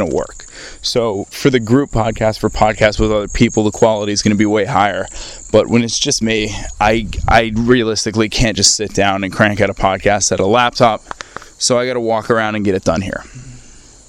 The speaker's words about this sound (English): Field recordings. I'm sure you can hear the crickets chirping and stuff.